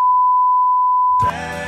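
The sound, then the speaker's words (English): A loud, steady, high-pitched electronic beep holds one unwavering tone for just over a second, then cuts off abruptly as a fuller, louder-textured sound takes over. “that beep is loud”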